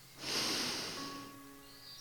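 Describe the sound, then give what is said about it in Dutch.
A deep breath in through the nose during a mindful breathing exercise makes a soft, airy hiss that swells and fades over about a second. It is faint and has no talk over it. “Haal vijf keer bewust adem. In door je neus”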